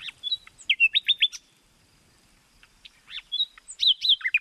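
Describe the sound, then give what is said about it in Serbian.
Bright, high bird chirps come in two quick runs of many notes, separated by a quiet pause. Each chirp is short and whistly, fairly faint, with no talk over them. “Evo kako crkuće jedna gola ptica.”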